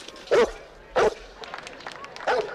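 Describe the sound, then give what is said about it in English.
A dog barks from a window during wedding photos outdoors: three sharp, loud barks, the first two close together and the third after a longer gap, with quiet background noise in between. “Zach turns and sees Hooch barking from the window. Hooch, knock it off.”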